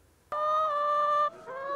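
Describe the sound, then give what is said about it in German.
Laying hens on a farm give two drawn-out, loud honking squawks. The second is shorter and follows a brief break, with no talk. “450 Legehennen leben auf dem Klausenhof in Wiefelstede.”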